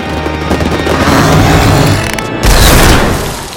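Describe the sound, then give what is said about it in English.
A canvas tent bulges and bursts apart, stuffed with overflowing popcorn and gorging creatures; a loud, dense crackling rumble builds steadily, then a sharper, heavier burst hits near the end before easing off. “The canvas of the tent bulges and explodes.”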